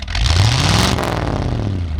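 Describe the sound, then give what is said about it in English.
A car engine revs and accelerates while a Volvo is driven, a loud, continuous drone whose low hum climbs in pitch, eases off, and then climbs again. “I actually forced Mark to record himself driving the car, and we are going to cut to that right now.”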